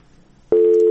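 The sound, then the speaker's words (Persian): A telephone busy signal sounds after a call drops: one steady, clear tone cuts in abruptly halfway through and holds to the end after faint low background. “تلفن قطع شد”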